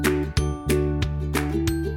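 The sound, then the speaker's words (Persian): A phone ringtone for an incoming consultation call plays as a loud, repeating tonal melody, with bright pulses recurring at a steady rhythm over sustained ringing tones and no talk. “حالا گوشی شما شروع به زنگ زدن میکنه و میتونین به مخاطبینتون مشاوره بدین.”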